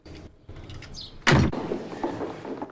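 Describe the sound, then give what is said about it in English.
A house door is shut behind two people. A single loud thud lands in the middle of a quiet room tone, then a low rumble fades out. “She ushers him into the house and shuts the door behind them.”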